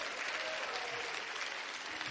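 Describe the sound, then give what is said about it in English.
A church audience claps together in worship, producing a steady, dense stream of many hands that stays faint and even from start to finish. “Oh, come on, clap your hands and just worship Him for just a moment.”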